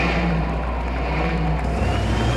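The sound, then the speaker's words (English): A student-built hybrid electric car drives in a campus parade, giving a steady broad motor and road rumble throughout, with a low tone that shifts slightly near the end. “Next up, it's the Hybrid Electric Vehicle Team with their car.”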